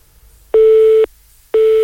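A telephone busy tone sounds after the caller has hung up: two loud, steady mid-pitched beeps, each lasting about half a second, separated by an equal gap of silence, with nothing else heard.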